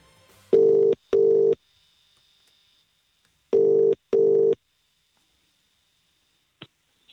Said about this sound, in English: We're dialing her now.